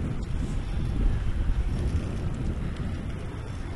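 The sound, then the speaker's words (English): Wind blowing across a microphone outdoors along a residential subdivision street, a steady low rumbling roar that stays level from start to finish. “And more wind.”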